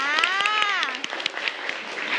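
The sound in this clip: A class of students claps their hands, at first a few scattered sharp claps under a voice, then a loose, uneven run of soft claps.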